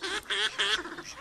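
Migrating waterfowl calling at seasonal spring wetlands in a rainwater basin: a couple of nasal, honking calls rise above a dense, continuous wash of other bird sounds.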